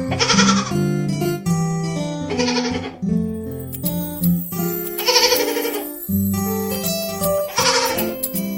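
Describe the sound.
Bleating of a baby goat: a few loud, wavering calls that come in repeated bursts over steady tonal sound.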